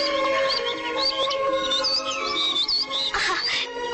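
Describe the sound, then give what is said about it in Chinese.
Two small birds chirp and tweet in quick, high twittering bursts throughout, over a steady low hum. “啊，还有两只小鸟在笑我们呢。”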